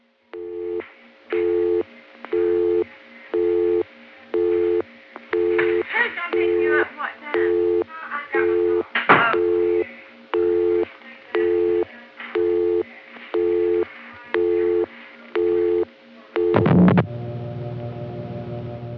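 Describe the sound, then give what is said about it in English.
Busy signal on a Western Electric PBX, reached by dialing a busy number in Atlanta in 1978: a steady series of regular on-off tone pulses about once a second, with voices and room sounds coming through the line during the middle pulses. “This is how they designed their PBX. I didn't do anything but dial a busy number, and that busy signal always is transparent like that.”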